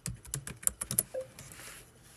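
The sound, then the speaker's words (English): Typing on a computer keyboard: a quick burst of crisp key clicks for about a second, followed by a faint, soft hiss. “I'm going to put Java and C++. And I'm going to type in Michigan.”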